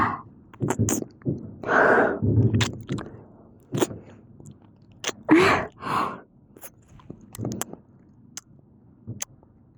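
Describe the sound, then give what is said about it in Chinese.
Wet mouth sounds of someone licking and tasting something: many short smacks, clicks and breathy gasps in an irregular rhythm at a moderate level, with no words spoken. “我舔一下，我尝一下，我尝一下味道。”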